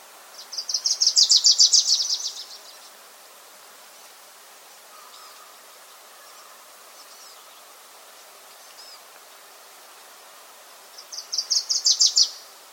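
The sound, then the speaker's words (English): Wilson's Warbler song at Thimbleberry Lake: two bright, rapid, high-pitched chattering trills that swell quickly in loudness, one near the start and one near the end, separated by a long quiet stretch with faint background sounds. “Once again, that was the Wilson's Warbler singing, that one recorded at Thimbleberry Lake.”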